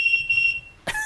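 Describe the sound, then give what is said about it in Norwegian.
Something rings with a high, steady electronic tone that lasts about half a second. It goes quiet, and then a brighter burst of ringing starts again near the end. “Da ringer det.”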